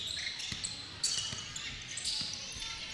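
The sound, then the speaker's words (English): Basketball dribbled on a hardwood court during a basketball game: a few soft, low thumps at an uneven pace, faint beneath steady crowd noise. “Bad Axe dribbling to the left wing.”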